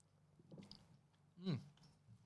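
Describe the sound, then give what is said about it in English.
Someone eats a Hungry Jack's muffin with smoky bacon, a faint, quiet scene with soft mouth noises and one distinct crunchy bite partway through, followed by gentle chewing. “I'm really hungry. I just want to start with the muffin. Okay. A muffin. So I'm going to start.”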